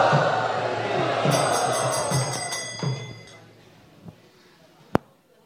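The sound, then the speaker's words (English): Crowd of devotees loudly chanting Hari Bol to welcome a speaker at a Sharad Purnima festival gathering. Voices rise and fall in a rhythmic pulse with bright metallic clinking, then fade to quiet, broken by a couple of sharp knocks. “Let us welcome him by loudly chanting Hari Bol, Hari Bol.”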